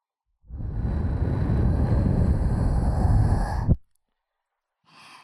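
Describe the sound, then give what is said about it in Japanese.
A long, steady breath blown into the listener's ear during ASMR: a breathy, airy rush that lasts about three seconds and then stops abruptly, followed by a faint short puff near the end. “息吹きかけると体よく反応しますね”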